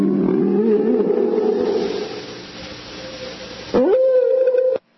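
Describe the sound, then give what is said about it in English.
Whale call: a loud, sustained, low moaning tone with wavering pitch, shifting into a steadier droning note before it cuts off abruptly. “that's the sound of an actual whale.”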